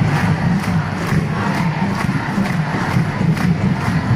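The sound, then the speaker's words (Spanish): Protest crowd in the square facing the European institutions, rallying against Israel, producing a steady roar of voices with a regular chanted beat pulsing through it. “Esta es la plaza frente a las instituciones europeas. Europa se echa a la calle contra el genocidio israelí.”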